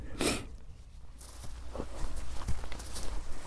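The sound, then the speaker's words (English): Footsteps along a boggy, rutted footpath: a few soft, uneven footfalls, with a sharper scuffing step near the start and duller thuds later, heard alone with no talk. “Just walked along one of the skankiest footpaths I've ever walked on.”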